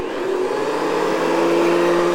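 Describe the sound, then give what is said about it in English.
A vacuum cleaner runs with its brush on carpet, giving a loud, steady drone with a sustained tonal whine that stays even throughout, with no voices. “You can hear like the brush on the carpet too.”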